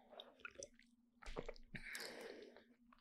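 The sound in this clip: Faint, wet chewing and mouth sounds as someone tastes something greenish and sour, a few soft squishy bites and smacks at low volume with no talking.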